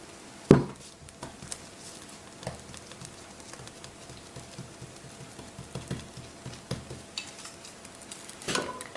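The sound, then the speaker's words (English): Soft food sizzling as it cooks in a hot pan: a faint, steady hiss with scattered light taps and clicks of utensils, and a sharper knock near the start and another at the end. “nice and hot. You just have to be a little careful because it's soft. Hear that sizzle in there?”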